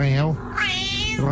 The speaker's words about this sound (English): This is the cat with the Scouse accent.